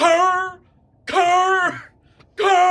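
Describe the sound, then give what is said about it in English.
A human voice imitates a velociraptor call with three loud, harsh, shrieking cries. The cries are separated by short pauses, with no other sound. “Like the velociraptors from Jurassic Park.”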